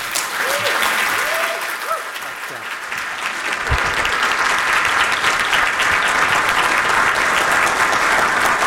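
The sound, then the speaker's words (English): Audience applause welcoming a speaker at the City Club of Cleveland: dense, sustained clapping from a large crowd that swells a little past the midpoint and continues loud to the end, with a brief voice heard near the start. “members and friends of the City Club of Cleveland, please join me in a warm welcome for Jeff Epstein.”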